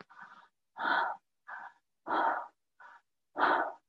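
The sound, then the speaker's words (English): Breathing in and out through the mouth with a relaxed jaw in a steady cycle. Breath sounds alternate between longer, fuller ones and shorter, lighter ones, with brief silences between them. “which is basically breathing in and out through the mouth with a relaxed jaw.”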